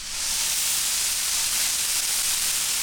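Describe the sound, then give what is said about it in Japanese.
Steady, loud sizzling of a thick block of meat searing on a hot plate: a dense, even hiss that runs unbroken through the whole stretch, with no talk over it. “今ブロック焼いてるんですけど、ちょっとカットしていきますよ。”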